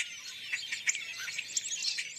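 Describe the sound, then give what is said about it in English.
Starlings chirping while feeding on fruit alongside other fruit-eating birds. Many quick, high, thin calls scatter irregularly over a faint, quiet background. “Sometimes other fruit-eating birds, such as these starlings, accompany them.”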